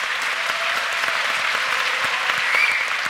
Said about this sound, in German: Bitte, Applaus.